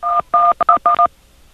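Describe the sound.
Telephone dialing tones come as six loud, rapid touch-tone beeps in an uneven sequence, some longer and some clipped short, with nothing else heard around them.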